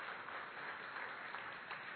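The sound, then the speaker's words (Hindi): Faint, steady applause from an audience welcoming a teacher and his student, recognized at a stage ceremony. The clapping stays even and muffled for about two seconds. “आप उनका भी गुरु और शिष्य दोनों को ताली बजा करके उनका स्वागत करें.”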